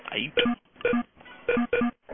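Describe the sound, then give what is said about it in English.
Telephone dialing tones on a PBX phone system sound as a quick series of short, clear tone bursts separated by brief gaps, each burst beeping at a slightly different pitch. “The hell is that? That's the PBX.”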